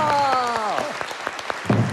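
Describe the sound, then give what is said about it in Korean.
Brief burst of audience clapping at a live Korean comic performance. Sharp, scattered claps sound under a falling vocal exclamation, then a louder thump near the end. “박수 한번 쳐드립시다.”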